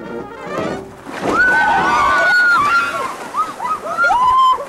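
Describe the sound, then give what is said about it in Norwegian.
Water sloshing and splashing as a boat is paddled upstream through floodwater: continuous, fairly loud splashy noise with some whistle-like tonal sounds above it. “De driver og padler.”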